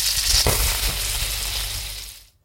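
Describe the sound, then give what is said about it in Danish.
Sausage sizzling as it fries in the pan makes a loud, steady hiss of crackling fat that runs without a break and then cuts off abruptly at the end, with no voices. “Du får en lyd af en stegende pølse.”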